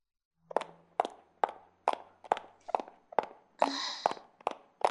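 Footsteps walking outdoors in the cold, a steady, even series of many crisp, sharp steps at a brisk pace, with one longer scuffing step toward the end.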